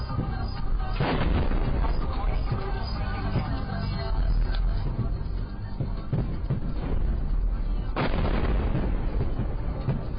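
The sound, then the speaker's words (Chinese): Explosions from a Ukrainian airstrike on Belgorod, caught by a civilian's dashcam. Two heavy booms stand out near the start and near the end against a dense, continuous rumble and crackle. “比尔格罗德市民的行车记录器正好捕捉到乌克兰对这座城市发起空袭的瞬间。”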